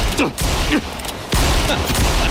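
Gunshots fired upward from below by a man caught in a trap: a few loud, sharp blasts, each followed by a harsh burst of noise, coming in quick succession.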